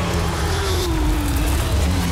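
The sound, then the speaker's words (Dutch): Porsche Supercup race cars roar around the Zandvoort circuit in a loud, continuous engine din, with one engine tone sliding gently downward as a car passes. “De Porsche Supercup dendert over Zandvoort. Volop strijd. Volop geluid.”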